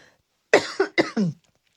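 Four harsh, throaty coughs from a person with a scratchy throat, in quick uneven succession and moderately loud, with no talk around them.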